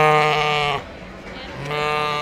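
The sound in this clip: Farm animals bleat from barn pens at a livestock auction at the Harrisburg Farm Show in Pennsylvania: two loud, drawn-out, sheep-like bleats with a quieter, lower sound between them.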